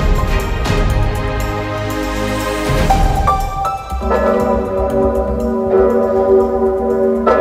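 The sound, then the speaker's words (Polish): A large church bell at Wawel cathedral in Kraków tolls in mourning for a pope's death. Its deep, resonant strikes are loud and sustained, with humming overtones lingering between blows and no speech. “Głowę Kościoła katolickiego żegna z Wawelu dzwon Zygmunta.”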